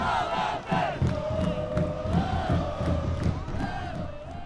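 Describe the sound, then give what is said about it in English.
Soccer fans cheering at a Columbus Crew home game, the club's final home match of the season, with many voices blending into a loud, sustained roar that swells and dips only slightly. “At the Crew's final home game of the season, fans dressed in black and yellow cupped their hands around their mouths as they cheered on the soccer club.”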